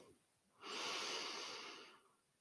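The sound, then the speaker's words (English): One deep breath drawn in during a guided breathing exercise: a steady, airy inhale that swells quickly, holds for about a second and a half, then tapers away. “And breathe in.”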